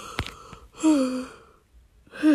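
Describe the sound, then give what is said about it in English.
A person yawns: a breathy intake, then a drawn-out voiced exhale that falls in pitch, with another similar sound starting at the very end. “Sorry, I keep yawning.”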